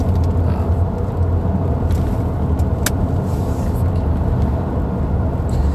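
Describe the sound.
A car driving along a country road at night, with a steady, loud low rumble of engine and tyres that holds evenly throughout without voices.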